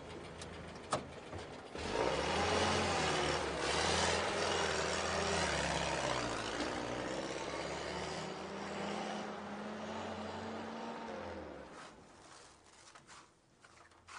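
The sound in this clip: A car engine runs while the car is driving, giving a faint, steady low rumble with droning tones that drift slightly in pitch, over broad road noise that eases off toward the end.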